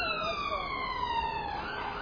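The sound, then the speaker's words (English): An emergency-vehicle siren wails as it passes along a city street in England. Its tone glides slowly downward in pitch across two seconds above a low background rumble. “alarms go, ambulances going by, fire trucks and all kinds of things.”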